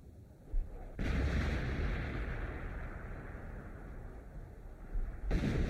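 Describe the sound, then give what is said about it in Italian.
Artillery bombardment at night: a sudden heavy burst opens into a sustained low rumbling roar, and another burst breaks in near the end. “Di nuovo notte. Dura da 24 ore ininterrottamente il bombardamento.”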